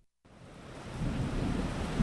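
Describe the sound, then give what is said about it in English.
Monsoon rain and thunder in India: a dense rushing hiss of rain begins after a brief silence, while a low rumble builds and swells louder toward the end. “India's monsoon makes a final flourish, but it's not enough. Hundreds of millions of Indians depend on these rains.”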